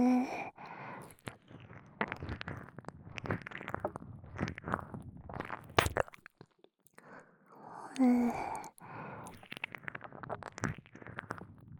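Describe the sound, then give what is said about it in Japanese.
Close, wet ASMR licking and mouth sounds, with many soft smacks, clicks and slurps in an irregular rhythm, quiet breaths between them and a short pause midway. “頭の中に響くくらい、思いっきり舐めちゃうからね。”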